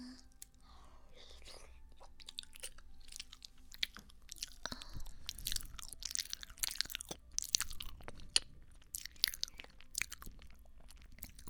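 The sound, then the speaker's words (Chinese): Someone chews soft, sticky cake. Many quiet, moist clicks and squelches come in an irregular rhythm, faint and close. “好吃吗？我记得你很喜欢吃姐姐做的蛋糕，软软糯糯的。”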